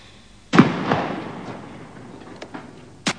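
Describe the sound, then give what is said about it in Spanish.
Distant explosions boom out in a few sharp, separate bursts, each striking suddenly and fading slowly, with quieter gaps between them and no voices. “¿Como unas explosiones o como...”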